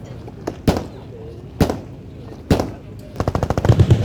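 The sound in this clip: Machine-gun fire from a private collection of about 120 machine guns: three sharp, loud single reports spaced about a second apart, then a rapid rattling burst of many shots.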